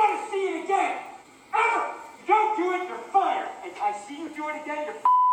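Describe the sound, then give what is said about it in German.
A steady censorship bleep cuts in at the very end, a clean high tone after a man's loud, angry shouting on a film set. “Sau viele Pieper.”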